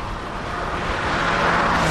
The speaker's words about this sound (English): The silver car continues to zoom down the motorway.